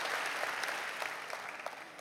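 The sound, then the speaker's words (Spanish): Applause from a church audience, a dense, steady wash of many hands clapping at once, moderately loud and fading slightly toward the end. “Dele un aplauso al Rey que lo mira así.”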